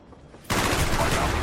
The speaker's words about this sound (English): first-person shooter games, you know, those really gory, violent video games, could actually be good for people. We're talking about games like Call of Duty.